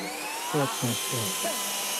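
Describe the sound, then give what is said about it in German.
A jet fighter taking off gives a loud, steady, hissing roar with high whining tones, while a voice speaks briefly over the noise. “Oh, jetzt startet der Düsenjäger wieder. Oh. Laut ist es.”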